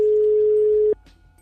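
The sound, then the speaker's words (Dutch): Telephone ringback tone as a call rings out: a single steady, mid-pitched tone holds for about a second and then cuts off, leaving faint background hiss. “zullen we Rico bellen?”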